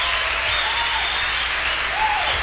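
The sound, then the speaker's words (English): Applause from an audience at a live soul music show, steady dense clapping that stays even and loud for the whole stretch, with a faint whistle over it. “Let's give him a big round of applause.”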